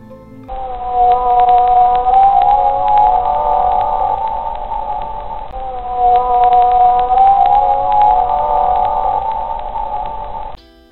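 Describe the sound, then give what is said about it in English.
Long tonal whale calls in two sustained, moaning phrases at a steady middle pitch with slight wavering. They are loud and heard alone. “This is a whale. So it's a type of whale.”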